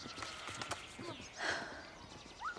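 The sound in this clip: Hooves of a horse carrying a rider clip-clop in the distance, a few irregular, fairly soft beats over a low background.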